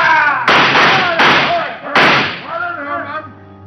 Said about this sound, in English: He and Fenner made a rush to the window, but some of Walt's men were waiting for them. They tried to shoot it out.